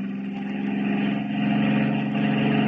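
A car engine runs with a steady mid-pitched drone as the car drives downhill with failed brakes, moderately loud and unbroken throughout, with no talk.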